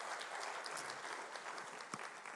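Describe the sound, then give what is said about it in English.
Applause from a church audience welcoming a woman onto the stage, with dense, steady clapping that stays loud and even for the whole stretch. “So can you give her a clap as she comes up?”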